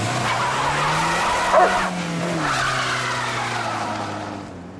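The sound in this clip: A car drives off with its tires skidding in a long, continuous squeal over a whining engine. The sound swells briefly about a third of the way in, then eases toward the end.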